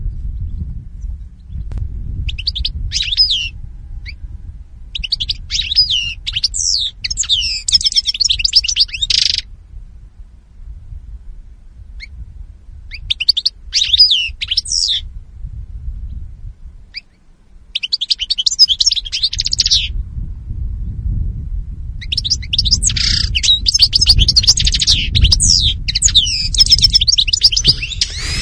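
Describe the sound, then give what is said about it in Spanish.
Birdsong from a common bird: repeated bursts of bright, high chirping and twittering phrases with short pauses between them, over a steady low rumble, with no voices. “el canto de pájaros, que les vamos a llevar cada semana, y que, bueno, pues en este caso, en el día de hoy, suena de la siguiente manera. Este es el audio que hemos seleccionado.”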